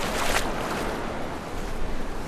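Sea waves wash onto the shore at Krynica Morska, a continuous broad rushing surge that is brightest near the start and then rolls on evenly.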